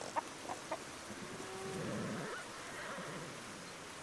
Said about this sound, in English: Sweet sounds of all the farm animals fill the valley.